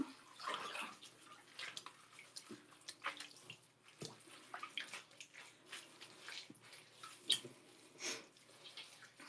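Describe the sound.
Running water as someone washes off sweat: faint, irregular splashing and trickling with small drips, steady throughout, with no talk.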